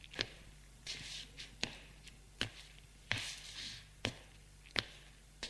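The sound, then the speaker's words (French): Footsteps of a man walking in a room: about eight distinct, evenly spaced thudding steps, each a sharp tap, alone and fairly faint against quiet background. “Il marche dans la pièce.”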